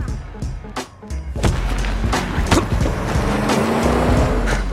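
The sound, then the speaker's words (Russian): A foreign-made car pulls away sharply down a road: a low engine rumble with a steady droning tone, broken by several sharp knocks and clatters early on, then a continuous engine hum. “Парни на иномарке резко поехали дальше по дороге.”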